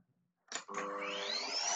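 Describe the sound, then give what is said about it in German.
A household vacuum cleaner starting up: a short burst, a brief dip, then a steady loud motor roar whose whine climbs in pitch as it spins up, with no talk. “jetzt kommt auch noch meine Mutter mit dem Staubsauger rein.”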